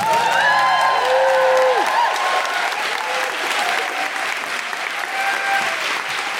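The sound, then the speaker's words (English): Audience applause with whoops and cheers rising above it at a Clamour Theatre Company event. The clapping is loud, dense and continuous throughout, and bright hooting cries cut through most clearly early on. “Put your hands together and make general hooing noises for Misha Kelly.”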